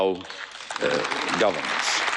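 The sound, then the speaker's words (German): EU parliamentarians applauding in the European Parliament, a broad rush of clapping that swells and holds while a voice speaks over it. “So Juncker unter dem Applaus der EU-Parlamentarier.”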